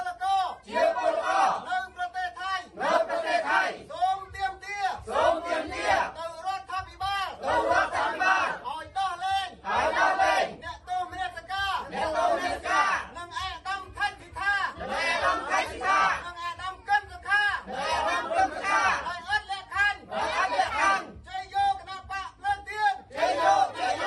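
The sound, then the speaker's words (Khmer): At a Candlelight Party rally in Cambodia, a crowd of supporters shouts and chants in loud, repeated rhythmic bursts, with short gaps of chatter between the swells of voices. “ការថ្លែងរបស់គណៈបកភ្លើងទៀនបែបនេះត្រូវបានស្វាគមន៍ដោយសម្លេងទះដៃនិងការសាទរ”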